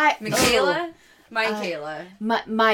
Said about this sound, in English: That was my dog that sneezed.